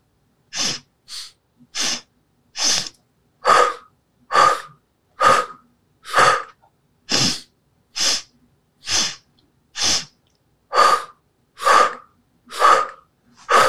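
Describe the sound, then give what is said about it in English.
Many loud, sharp breaths from a guided exercise of breathing in through the nose and out through the mouth, evenly spaced about once a second, with no talk between them. “Inhale in through the nose and then exhale out through the mouth. And we'll go for four.”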